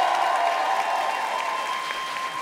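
Audience applause for a guest at a French-language show, a steady, continuous wash of clapping at even loudness throughout.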